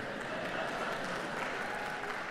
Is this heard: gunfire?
no